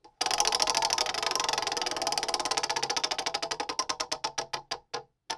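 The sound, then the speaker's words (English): Ticking of a spinning prize wheel. Sharp, bright clicks start fast and dense, then steadily slow and spread apart until the wheel stops, with no talk over them. “So let us spin the wheel.”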